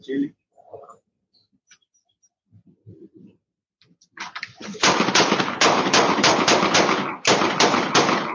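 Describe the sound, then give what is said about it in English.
Gunfire from a played video: dense, rapid, loud bursts that run steadily for several seconds. A few quiet voices and sparse sounds come before it. “Shots fired! Shots fired! Shots fired!”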